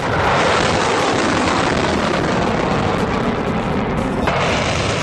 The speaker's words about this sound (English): Iran flexed military muscle and hit the long-range test fire launch button. Here's the sound from Iranian state TV.